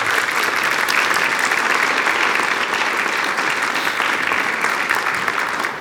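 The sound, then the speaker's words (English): A Presbyterian church audience applauds to welcome a school principal to the front, a dense, steady wash of clapping that holds at full strength for the whole six seconds. “So would you give a warm, thunderous welcome to Principal Shanti Clancy from St. James. Come on up.”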